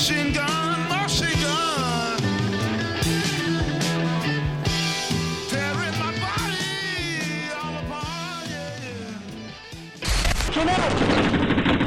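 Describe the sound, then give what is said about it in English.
Machine gun fire during a Taliban attack on a British base: a sudden, loud, rough burst of rapid shots breaks in near the end, after a long stretch of steady tonal music. “Machine gun!”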